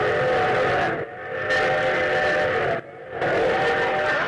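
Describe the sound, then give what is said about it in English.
A train sound effect: a steam-style whistle sounds three sustained, harmonic blasts with short gaps between them, the middle blast the longest, with no talk over it. “What's that? I got a new train effect.”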